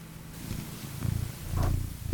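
A pet cat purrs in a low, steady, pulsing rumble that swells slightly louder toward the end, with no voices over it.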